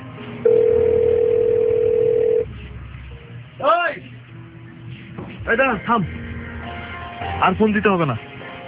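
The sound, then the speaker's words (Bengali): A phone call in progress: a steady, level telephone tone holds for about two seconds, followed by several stretches of people talking. “দাঁড়া phone করে দেখি। আমি তো phone দিয়েছিলাম, ধরে নাই, তুই দিয়ে দেখ তো।”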